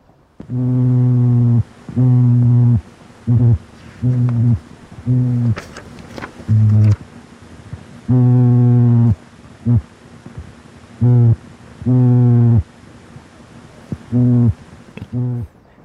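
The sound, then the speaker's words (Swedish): A sculpin, a bottom-dwelling fish with large fins and a wide mouth, makes swim-bladder warning calls: a long series of loud, buzzing, low harmonic grunts of varying length, separated by short gaps. “Vi har ett till fiskljud från en simpa. Är det de här bottenlevande fiskarna som ser så coola ut med stora fenor som sticker ut överallt och det här stora gapet. Ska vi lyssna på det?”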